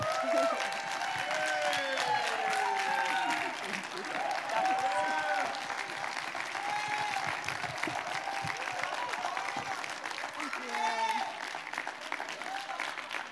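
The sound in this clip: Congregation applause welcoming a pastor to the stage: dense, steady clapping at an even level for the whole stretch, with scattered whoops and shouted cheers rising above it.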